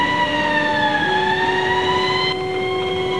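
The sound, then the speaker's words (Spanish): A siren sounds near a police cordon at a crime scene as a loud, sustained tonal wail rich in harmonics, its pitch shifting slightly partway through, with no talking. “Se oyen murmullos y alguna sirena encendida.”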